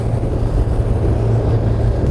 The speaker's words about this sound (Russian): Конкретно эта лодка новая. У нас тоже появилась возможность ее сегодня испытать.